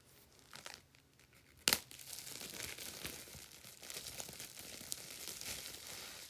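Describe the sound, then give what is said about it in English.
Crinkling of a wrapper being unwrapped: faint, continuous crackles and rustles with one sharp, louder crunch early on, followed by steady crinkling with no talk. “I'm unwrapping something. Listen to this ASMR.”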